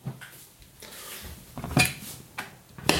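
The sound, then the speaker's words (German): Sugar poured from a cup into a small pot in a kitchen, heard as a soft granular rustle with a few brief clattering knocks of dishware. “Also in die trockene Tasse, halbe Tasse voll Zucker. Das füllen wir in unser Töpfchen.”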